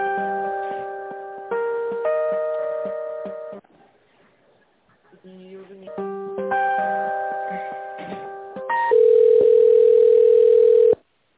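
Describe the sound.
Telephone tones sound while a call is connected: a run of steady beeping tones in changing steps, a short quiet gap, more stepped tones, then one long, loud, unbroken tone near the end.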